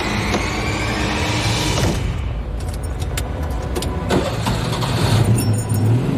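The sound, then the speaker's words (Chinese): A car engine starts inside a vehicle taking on floodwater, a continuous rumbling hum broken by clicking, jangling rattles, with a deeper engine note building toward the end. “我启动车，打着了，太好了。”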